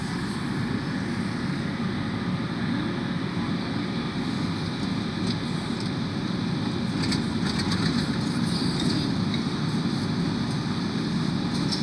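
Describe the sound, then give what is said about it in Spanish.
A constant low rumble fills the inside of a subway train, an even, unbroken roar of engine and track noise throughout, with faint higher rattles and no voices. “estoy en el subte”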